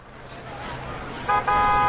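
Jeepney horn honking as it arrives: a short toot, then a longer sustained honk, both loud over rising road and engine noise.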